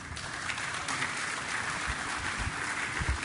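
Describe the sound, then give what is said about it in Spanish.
An audience applauds to welcome the mayor of Montevideo at an official ceremony, with continuous, moderately faint clapping and a few low thumps. “Recibamos con un fuerte aplauso al señor Intendente de Montevideo.”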